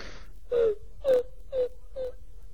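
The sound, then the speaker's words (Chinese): A woman crying within a spoken story performance: four whimpering sobs at a steady pace, each a short wavering wail, growing fainter toward the end. “说着潘金莲又哭了。潘金莲这一哭，这武大郎心里边就受不了了”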